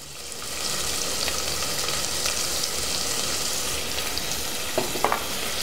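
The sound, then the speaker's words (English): Cumin seeds and chopped onion sizzling in a hot pan: a dense, steady hiss of frying that swells up after a quieter opening and holds, with a few sharper crackles and pops near the end. “And as the cumin seeds start to sizzle, you get that delicious aroma. And that is the time we're going to add our onions in.”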